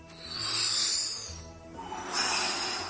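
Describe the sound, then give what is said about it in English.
Slow, deliberate breathing: two long airy breaths with a soft hissing, snorting texture, separated by a short pause and heard alone. “Step one, breathe.”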